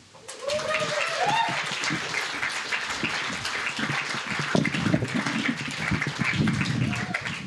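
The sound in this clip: An audience applauds as an elderly guest is welcomed onto the stage, a loud, sustained patter of many hands with voices speaking over it.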